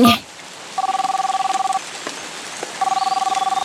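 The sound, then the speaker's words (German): Telephone dialing tones come from a radio device worn on a spacesuit belt, in two rapid bursts of many evenly pulsed, steady beeps separated by a short pause, over a soft hiss. “Achtung, ich mache das nochmal über meinen X-Funker hier am Raumanzuggürtel. X-Funker, bitte einmal Sternchen anrufen.”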